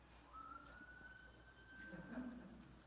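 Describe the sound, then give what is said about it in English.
Siren of a passing emergency vehicle, a faint, steady high whistling wail that holds a nearly level pitch and swells slightly before fading, with no voices. “For those of you at home, that was just a siren going by.”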